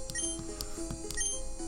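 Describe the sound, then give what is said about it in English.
Video-game sound effect of a potion sprayed on a Pokémon to restore its health, a bright electronic chiming with a few short high pulses over steady tonal game music. “I'm gonna use a potion on Oshawott. Yeah. Sprayed the potion on Oshawott, back up to 34 health.”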